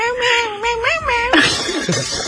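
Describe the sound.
Cat-like meows are pitched to a Christmas song melody in a quick string of warbling notes that rise and fall, fairly loud and without talking.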